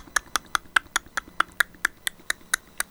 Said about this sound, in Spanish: Ahora vamos a pegar la lengua a nuestro paladar y hacer este sonido.